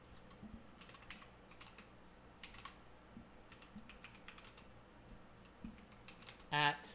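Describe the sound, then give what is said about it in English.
Faint, irregular keystrokes on a computer keyboard as a web search is typed, the soft clicks arriving in quick scattered bursts. “I'm going to type in how much is beer at a stadium.”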